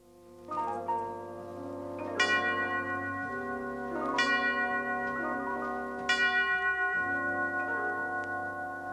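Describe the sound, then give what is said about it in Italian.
A church bell in the Notre Dame bell tower tolls three times, each bright, ringing stroke blooming out over a sustained musical chord and slowly fading before the next. “Battevano tre rintocchi al campanile di Notre Dame”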